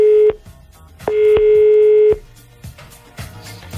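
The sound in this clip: Telephone number being dialled for a call, heard as loud steady electronic beeps of differing lengths, followed by quieter clicks and low sounds.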